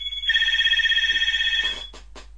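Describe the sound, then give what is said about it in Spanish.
A telephone rings with one long electronic trill, a bright warbling tone held for about a second and a half, then cut off and followed by a few short noise bursts. “acaba de sonar el teléfono. Ya ven que este es un podcast en vivo y en directo.”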